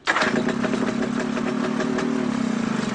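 An engine starts with a sudden burst and then settles into a steady, mid-pitched running drone that continues evenly, with no other sounds.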